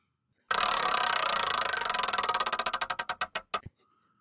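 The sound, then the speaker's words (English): Rapid ratcheting clicks of a spinning prize wheel in a pop culture draft game, starting loud and dense, then slowing as the ticks spread farther apart until the wheel stops. “So we've just spun the wheel. It's literally millimeters away from Nerd Movie.”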